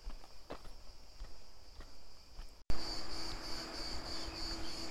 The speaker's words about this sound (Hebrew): אני צועד עכשיו פה ביוקנעם